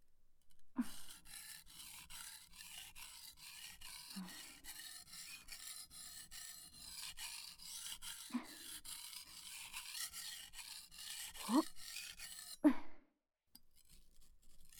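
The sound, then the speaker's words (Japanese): A kitchen knife being sharpened: a long run of rapid, even rasping strokes of the blade. A few louder scraping strokes stand out before the rubbing stops abruptly, leaving near silence. “これくらい研いでみてどう変わるのか。”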